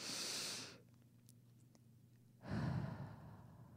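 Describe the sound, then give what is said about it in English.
Deep, slow breathing: two long airy breaths separated by a quiet pause, the first a bright hiss and the second fuller and lower. “I'm going to take one breath in, if you want to take it in with me, and we can connect with the energy of Archangel Raphael.”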